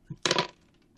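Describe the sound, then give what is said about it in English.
Dice clatter briefly as they are rolled and fall: a small tap, then a short burst of bright rattling that fades quickly. “My cursed dice, no! I'm going to use a non-cursed dice, sorry. Oh, no. No! The cursed dice are overboard.”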